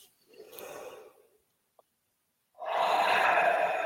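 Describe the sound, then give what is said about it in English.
A group takes a collective deep breath: a soft, breathy inhale fades out, a brief quiet pause follows, then a longer, louder sighing exhale rushes out. “Maybe we can take a collective, like, deep breath.”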